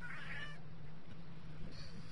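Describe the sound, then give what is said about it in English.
A cat meows in the background, a short, high mewing cry near the start over a low, steady hum, followed by quieter moments of faint background noise. “Oh, the cat in the background.”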